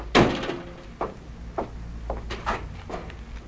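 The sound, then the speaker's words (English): An office door in a camp commandant's hut opens as an SS officer lets himself in: one sharp wooden thump, then several softer knocks and clunks spaced about half a second apart. “He marches up the steps to the office and lets himself in.”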